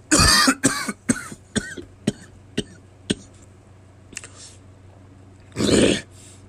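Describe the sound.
A coughing fit clears something stuck in the throat: a harsh opening burst, then a run of sharp, shorter coughs that weaken, and a final heavy cough after a pause.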